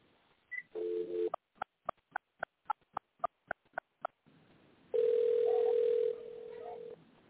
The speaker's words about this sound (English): I'm going to dial your number again and see what happens.